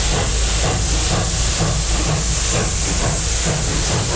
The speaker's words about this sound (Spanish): vamos a subirnos al tren, que ya ha llegado a la estación